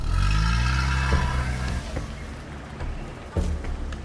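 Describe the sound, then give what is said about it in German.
A car engine starts with the ignition key on a vehicle with a loading bed that people are riding on, giving a loud, steady low rumble that eases slightly, with a few sharp clanks and knocks near the middle and end. “Doktor dreht den Autoschlüssel um. Herrschaften, auf geht's!”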